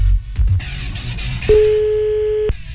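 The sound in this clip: A telephone ringback tone sounds over the line as an outgoing call is placed: a single steady, mid-pitched electronic tone held for about a second, following a few soft clicks and low rumbling handling noise, with no voices.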